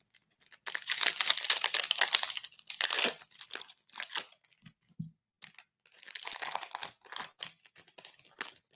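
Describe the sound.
Crinkling and tearing of a wrapped pack of 2023 Mosaic football trading cards being opened, heard as several bright, rustling bursts separated by short pauses, with no talk.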